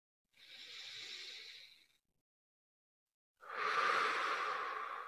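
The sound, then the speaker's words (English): A deep breath is taken alone: a slow, soft inhale, then a pause, then a longer, louder breathy exhale. “And take a deep breath.”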